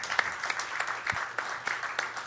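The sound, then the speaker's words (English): Audience applause, a thin scattering of claps with a few sharper individual hits, steady and fairly faint throughout, with no speech. “Give him a round of applause as well.”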